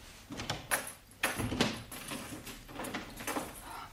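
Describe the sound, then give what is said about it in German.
A door is shut and locked, giving a faint series of sharp knocks, clicks and metallic rattles spread unevenly over a few seconds, with a low background hiss between them. “ich schließe die Türe zu.”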